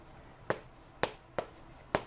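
Four sharp, crisp taps of writing while someone works through a math problem, spaced unevenly and standing out clearly over a quiet background hiss.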